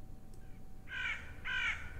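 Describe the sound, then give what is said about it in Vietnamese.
A crow in a graveyard caws twice, two harsh, rasping calls about half a second apart, standing out over a low, steady background hum. “là một con quạ bay vụt lên từ cuối nghĩa địa rồi kêu lên những tiếng nghe ghê rợn.”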